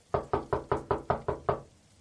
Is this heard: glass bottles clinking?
no